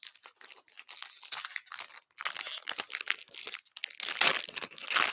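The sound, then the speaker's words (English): A Pokémon Astral Radiance trading card booster pack is torn open with continuous crinkling and crackling of the foil wrapper. Sharp tearing bursts come in uneven pulses and grow louder toward the end, with no talk. “Time for an Astral Radiance. I hope I get at least one good code card.”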